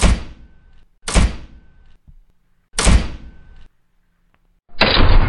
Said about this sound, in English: Open the door. Now! We need to talk. Open up. I'm deadly serious. Fine. I'm breaking it down.